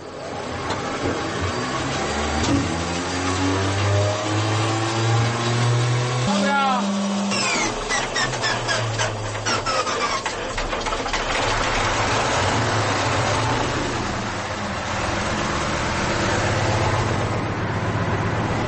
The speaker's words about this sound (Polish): No to na pewno będzie duży rarytas usłyszeć i zobaczyć taki jadący pojazd.